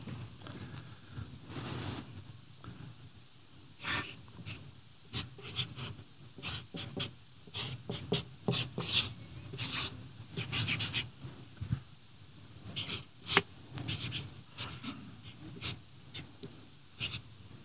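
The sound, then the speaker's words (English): Scratchy writing strokes on masking tape stuck to the back of a T-square, coming in many quick bursts of short scrapes with brief pauses between words. “So what I did is I put some masking tape on the back here because I didn't want to write on my T-square. But I will write on here for you.”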